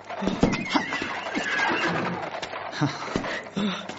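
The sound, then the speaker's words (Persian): A horse neighs in a drawn-out whinny, with scattered hoof thuds and shuffling around it. “از اسب به زیر شو تا شاه را در سوار شدن بر اسب یاری کنی.”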